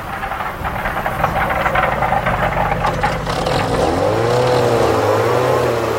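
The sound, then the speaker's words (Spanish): A car engine strains as it climbs steep mountain roads, heating up and puffing laboriously. The engine makes a steady, loud, rough roar. Its pitch sweeps and wavers in the second half, and no voices are heard. “A medida que el carro empieza a calentarse y resopla fatigosamente, su dueño se hace lenguas de la potencia del motor”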